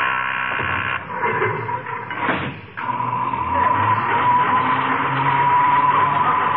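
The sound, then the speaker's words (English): A noisy self-operated elevator runs with a loud, grinding mechanical whir and a steady high whine on top. The roar dips briefly partway through, then carries on evenly. “The elevator makes so much noise you can't hear it.”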